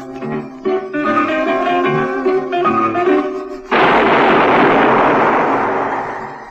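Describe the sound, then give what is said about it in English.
A single loud gunshot, fired in a sewer beneath Vienna, bursts in abruptly after a stretch of zither music and leaves a long, broad, rumbling tail that slowly fades away. “That was the shot that killed Harry Lime.”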